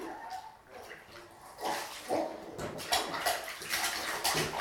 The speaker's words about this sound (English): Now, he's going to wash your back.